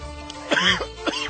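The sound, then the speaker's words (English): Coughing after accidentally inhaling a drink: two throaty, voiced coughing bursts, the first longer and louder, the second shorter, clear and fairly loud. “There we go, inhaling... Inhaling my drink again.”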